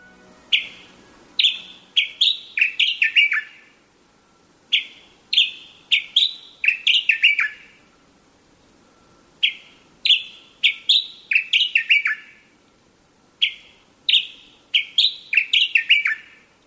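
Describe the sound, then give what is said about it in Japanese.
Wild birds sing behind a shop in town at night: bright, high chirping phrases repeat four times with pauses between, clear and alone without voices. “どうやら店の裏手で本物の鳥が鳴いているようです。”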